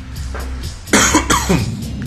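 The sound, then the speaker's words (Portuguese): Coughing from one person, a few harsh, loud bursts crowded into the second half after a quieter opening stretch. “fala aí enquanto eu tosso”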